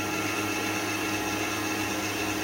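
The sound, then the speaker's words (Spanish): An electric mixer beats cake batter in one steady, loud, unbroken whir that lasts the whole moment, with no talk over it. “lo dejamos ahora en cuanto termine de echar, lo dejaré batir un minutito y empezamos a poner la harina.”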